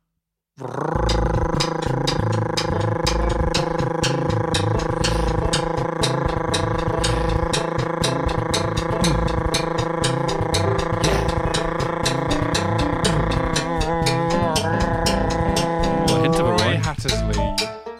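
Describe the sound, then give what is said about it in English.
A person produces one long, continuous rolled R trill in a timed game-show challenge. The buzzing, rapidly fluttering tone stays loud and steady for about sixteen seconds before breaking off. “17.1 seconds. That's close as well. It was a lovely roll of the R.”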